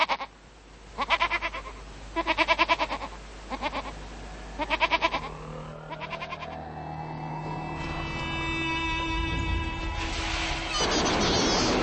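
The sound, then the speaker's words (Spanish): Cameroon goats grazing under a local bridge bleat repeatedly in wavering, nasal calls through the first half. A steady mechanical hum then builds and lasts to the end. “podrán divisar en los alrededores otra curiosidad, cabras cameruneses que pastan debajo del puente local. Los chivos tienen cuernos y una densa barba, así que se parecen un poco al diablo.”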